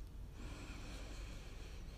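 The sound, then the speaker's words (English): A deep inhale taken during a breathing exercise: one steady, airy breath drawn in over about two seconds, faint and even, with no talking. “Exhale first. Inhale.”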